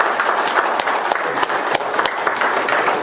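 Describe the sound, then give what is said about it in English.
A church audience applauds the women, a thick, continuous wash of many hands clapping at an even, loud level throughout, with individual sharp claps poking through the texture. “Men, give them a hand of applause.”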